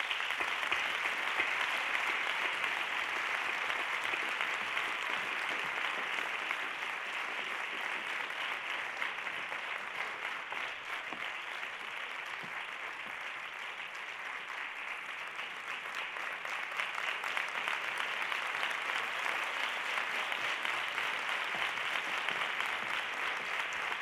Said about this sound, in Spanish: Un aplauso, por favor.